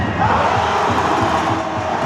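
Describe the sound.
A crowd roars and cheers at a handball match between the Cournon team and its opponents at the Maison des Sports in Clermont-Ferrand, a dense, continuous wash of voices that stays loud throughout.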